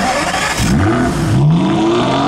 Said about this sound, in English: Just taking the Aston Martin out for a quick spin, Q.